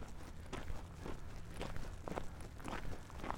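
Footsteps crunch over dry ground on a long walk, a steady rhythm of many short, gritty scuffs at a walking pace that continues throughout.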